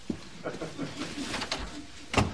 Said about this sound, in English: Whoa, this is serious. Let me close the door.